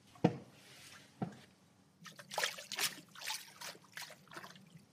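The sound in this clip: Water sloshing as a paddle is moved back and forth in a water tank to make waves. Two sharp splashy strokes come first, then a run of softer swishing surges, all fairly faint.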